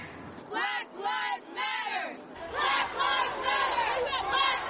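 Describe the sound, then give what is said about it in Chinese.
Crowd chanting at a Black Lives Matter protest march in New Jersey: loud, rhythmic shouted phrases repeat in bursts, and the chant swells fuller and denser about halfway through. “这是一个全美各地都能听到的呐喊，”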